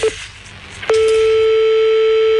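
A telephone line tone after a call is cut off: a brief beep, then a steady, unbroken mid-pitched tone held to the end over a faint background hiss.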